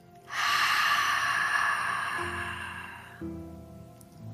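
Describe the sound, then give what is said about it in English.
A single deep, airy breath, loud and steady for about three seconds before it tapers into a quieter, softer tail. “Take a deep breath in. Deep breath out.”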